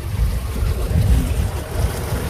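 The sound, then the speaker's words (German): A solar-powered ferry crossing the Weser river, heard as a steady low rumble of water and wind wash, with no voices. “Fähre fahren macht Spaß. Ich fahre hier jetzt auch schon zum zweiten Mal.”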